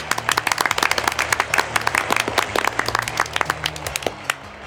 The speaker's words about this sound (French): Écoutez, elles arrivent. On les applaudit.